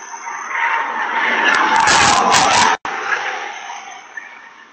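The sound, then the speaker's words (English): Car crash: a long, loud tire skid swells for a couple of seconds, then breaks off abruptly into a brief silence, followed by a fading rush of noise and one small knock. “Here's a crash. Here it comes. Crash. That's what 90 and a 20 looks like. Sounds like.”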